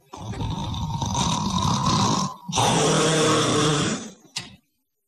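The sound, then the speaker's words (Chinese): A human voice imitates loud snoring: two long, rough, rasping snores separated by a brief pause, then a short final snort. “这呼噜打得鼻息如雷。这呼噜是由小声到大声，是由大声到特大声，最后这呼噜打得真的那屋子里边都直动弹。”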